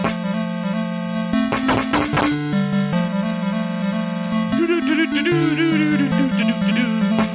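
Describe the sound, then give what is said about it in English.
Chiptune theme music from an X-Men video game on the Sega Game Gear plays alone: a bright, buzzy square-wave melody steps between sustained notes over a steady bass line. “And that's the 90s X-Men song somewhere, right? That's not the intro song, but it's very much of that theme, right?”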